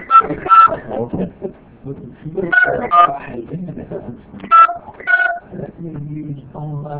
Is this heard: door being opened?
no